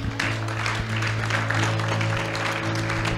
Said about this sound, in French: Est-ce qu'on peut se lever et acclamer le Seigneur